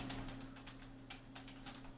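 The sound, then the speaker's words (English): Faint typing on a computer keyboard produces separate, soft key taps in an irregular rhythm over a low, steady hum. “The Goonies, I typed.”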